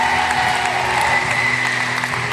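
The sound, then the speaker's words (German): Applause from a church audience welcoming new members, a dense, continuous patter of many hands clapping steadily throughout with no talk. “Hey, einen dicken Applaus für Frauen und Männer, die jetzt Teil dieser Familie geworden sind.”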